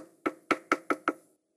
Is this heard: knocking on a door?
yes